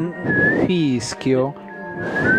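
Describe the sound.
Human whistling a tune: a clear, melodic tone that glides and bends in pitch, with a voiced sound joining in briefly in the middle.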